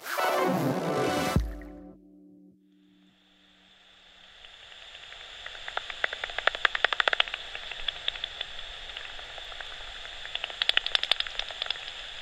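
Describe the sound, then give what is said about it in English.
Pipistrelle bat echolocation calls, converted from ultrasound to audible sound, come through as rapid, dry ticks and crackles over a steady hiss, bunching into dense bursts of many clicks. “What you're hearing now is the sound of what's probably a pipistrel bat using ultrasonic echolocation to navigate and hunt,”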